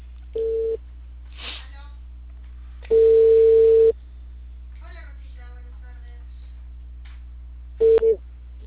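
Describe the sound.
Telephone line tone on an outgoing call to a cable TV provider: short steady single-pitch tone bursts at irregular intervals, the last one doubled, with faint murmuring voices between them.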